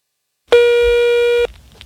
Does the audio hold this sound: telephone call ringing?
yes